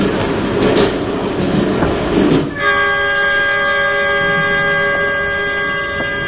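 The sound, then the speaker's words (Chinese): A passenger train rolls along with a broad rumbling clatter, then its horn sounds as a loud, steady, sustained tone that holds to the end. “各位旅客，请您好，欢迎在除夕之夜乘坐本次列车。”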